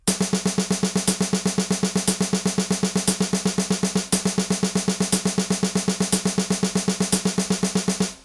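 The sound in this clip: Thirty-second notes played as a fast, even stream of many repeated pitched notes, with a sharper accent marking each beat. The pulse stays steady for the whole passage and then stops.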